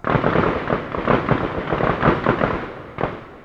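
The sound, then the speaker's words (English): Gunfire echoing from a nearby gun range: many sharp, overlapping cracks and pops in an irregular rapid stream, with steady loud reports and a distinct burst near the end. “You can probably hear the gunfire in the background of that clip.”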